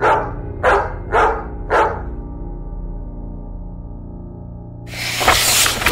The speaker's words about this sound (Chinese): 只有远处不断传来的狗吠声，此起彼落。